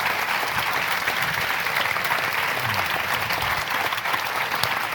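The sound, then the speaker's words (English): Audience applause: a large crowd claps as a round of applause for someone, producing dense, even clapping that stays loud and steady for the full five seconds. “we will embarrass you now by giving you an enormous round of applause for what you've done.”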